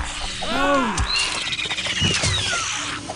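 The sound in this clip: Mutant rats squeal in a video game: a few high, wavering squeaks and chirps ring out over a continuous bed of game noise, the loudest squeal arching up and down early on.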